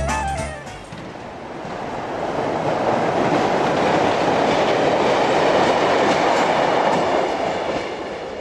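A train runs along the rails with a loud, broad roaring rumble that swells in during the first seconds, holds steady and eases slightly near the end, with no voices.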